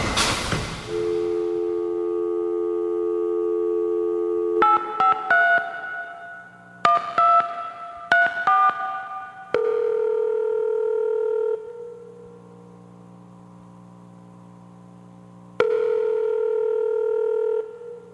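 A telephone dial tone, then a run of keypad dialing tones, followed by two long ringback tones separated by silence as the call rings unanswered.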